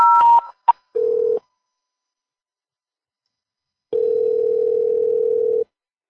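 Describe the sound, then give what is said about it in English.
Voicemail beep: after a few brief electronic blips, a short steady mid-pitched tone sounds, then silence, then a longer tone at the same pitch that cuts off cleanly. “You have reached voicemail. Please begin talking after the tone.”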